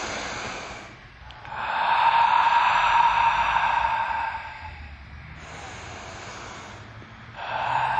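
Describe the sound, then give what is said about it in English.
Deep breathing during a yoga session: a few long, airy inhales and exhales, soft and breathy, each swelling and fading slowly with brief pauses between them. “Good, and breathe. Tuck your tailbone, float your arms up towards the sky. Let's do 5 deep breaths.”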